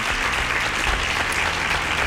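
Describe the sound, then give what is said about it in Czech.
Continuous applause for a contestant who answered a question correctly, a dense hiss of many clapping hands sustained at an even level, with no voices above it. “Ano, potlesk pro vás.”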